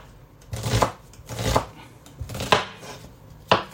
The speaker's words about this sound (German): Passt halt auf beim Schneiden nicht, dass ihr euch die Finger schneidet. Das ist, wie ihr ein bisschen Routine habt fürs Messer, dass ihr da ein Gefühl dafür habt.